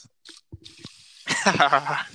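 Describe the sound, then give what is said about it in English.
Water runs and splashes as a sound effect during a video game, with a soft hissing trickle at first and then people talking over it. “Okay, I could definitely hear that water”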